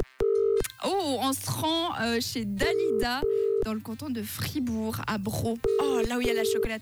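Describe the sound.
A telephone line rings during a radio call to a listener. Several steady, mid-pitched ring tones repeat under a host who keeps talking over them.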